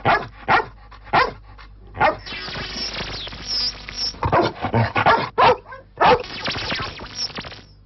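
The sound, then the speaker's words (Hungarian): Dog barking in recorded bark samples gathered for a bark-classifying translator: many loud, sharp barks, some spaced apart and others running together into rougher, more continuous stretches. “Ez az ugatás osztályozó. Az adott ugatás típusát, mondjuk bánat, ezek a kis jelek mutatják.”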